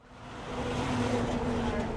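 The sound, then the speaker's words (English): Traffic on Waverly Street, a busy main thoroughfare in South Framingham after the morning rush, swells into a broad rushing hiss as a car passes, over a low, steady engine hum. “I'm walking on Waverly Street in South Framingham. It's a main thoroughfare in this area, and a lot of cars are passing by, even after morning rush hour.”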